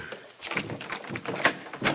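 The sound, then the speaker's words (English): A door being unlocked and then opened, heard as a run of short clattering clicks and knocks with scrapes, fairly faint and fairly even in level. “We'll open the door.”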